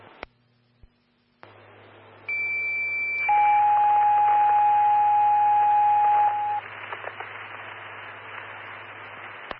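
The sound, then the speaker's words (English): Fire dispatch alert tones call a medic to a sick person. A loud, pure high tone is followed by a long, steady lower tone, both over faint radio hiss. “stand by for tones on the sick party.”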